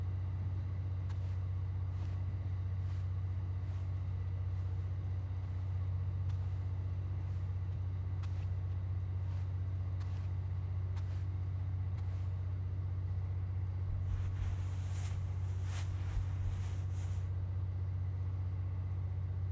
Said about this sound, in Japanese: 電気機関車、ラウンジですぐ近くで聞くと結構大きな音がしますね。